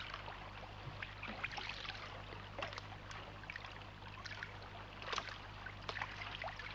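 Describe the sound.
Oars rowing a boat produce faint, irregular water splashes and trickles over a steady low hum, with a few slightly louder dips of the blades.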